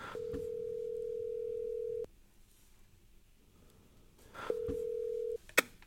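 A telephone call ringing out: two steady mid-pitched ring tones, a long one and then a shorter one, separated by a stretch of faint line hiss, followed by a sharp click near the end.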